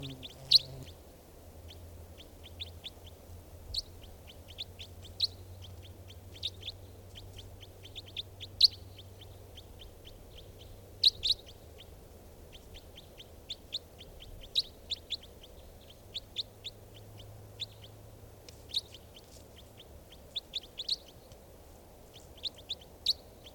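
Bird calls: many short, sharp chirps repeat at irregular intervals over a faint, steady low rumble, with no voices.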